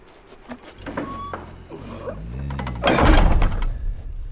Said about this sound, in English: Peter, High King of Narnia, shut the door.